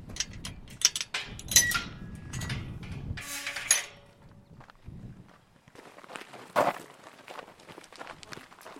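A van door shuts and footsteps walk away outdoors at a lay-by by a marsh nature reserve. Uneven steps crunch in short bursts, with a louder knock partway through, then quieter scattered steps.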